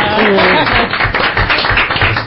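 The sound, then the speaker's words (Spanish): Clapping from a few people during a studio programme, loud and irregular, with separate hand claps breaking through after a voice at the start. “Esto, hombre, un aplauso para Angeluna.”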